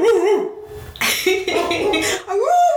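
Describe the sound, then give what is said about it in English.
A dog barks in a few loud, drawn-out tonal bursts, its pitch wavering up and down between short pauses. “She's just laying on the couch staring at me barking.”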